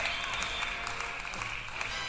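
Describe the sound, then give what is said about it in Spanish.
Applause for a birthday, steady and dense clapping from a group that fills the whole clip without pause or build. “Un aplauso para Norma Blas.”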